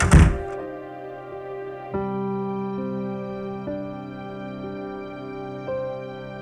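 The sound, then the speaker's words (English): A door swinging shut gives one heavy, dull thunk at the start, then sustained low musical tones ring on, with soft accents at a few points. “let the door swing shut”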